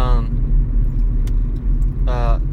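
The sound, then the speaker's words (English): A car driving along a road, with a steady low engine and road rumble throughout and voices talking briefly at the start and again near the end. “But yeah, now we're just driving.”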